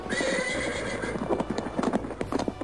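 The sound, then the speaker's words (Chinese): Hooves of eight horses drawing a chariot clatter in a rapid, uneven clip-clop, with a horse's high whinny ringing out near the start. “周穆王呢乘坐着八骏所驾的马车，造父呢为他驾车”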